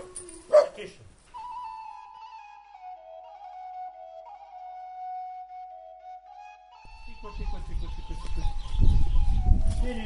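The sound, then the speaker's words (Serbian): A dog on a rainy day gives a sharp yelp, then a long, thin, steady whine whose pitch sinks slightly. Louder rustling and scuffling noise builds toward the end. “Kuca! Ajde! Šta bre juriš? Ajde. Ajde.”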